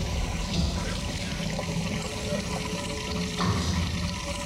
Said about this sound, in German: Es kommt von unten. Jan, komm schnell! Alles ist voll Wasser. Es steigt.